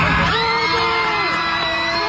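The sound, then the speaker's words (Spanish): Passengers aboard a plane in flight shout, whoop and cheer together in a loud, dense burst of overlapping voices that keeps going throughout, celebrating a World Cup final result. “¡Oh, my God! Gritaron todos. ¡Todos saltando en el avión! El avión saltando, no marches. ¡Wow! En pleno vuelo, ¿eh?”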